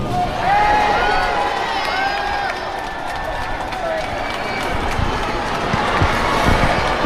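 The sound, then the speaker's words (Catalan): A crowd outside the Palau reacts to a figure's brief words, a continuous mass of voices murmuring and calling out, with a few higher shouts or whistles rising above the steady noise. “No sé si podeu sentir la gent reaccionant a les seves paraules.”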